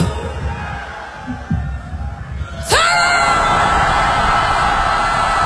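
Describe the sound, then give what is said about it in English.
A large audience screams on cue, a sudden loud roar of many high voices that holds steady to the end, following a quieter stretch of crowd murmur. “Now what would happen if I count to three and on three you would scream even louder?”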